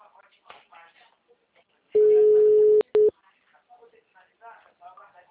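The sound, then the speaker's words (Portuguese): A telephone tone after a dropped call sounds as one long, steady mid-pitched beep followed by a brief second beep. Quiet voices talk before and after it. “Ligação caiu. Certo, retornei o contato então.”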